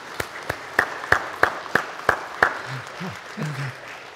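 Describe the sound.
A church audience claps to welcome the choir back on a Sunday. Eight sharp, evenly spaced claps keep a steady rhythm, then fade into faint low voices.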